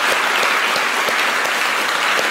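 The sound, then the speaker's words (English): Dense, steady applause from an audience thanking a volunteer, a continuous wash of many hands clapping at even loudness without a break. “Let's give her one more hand.”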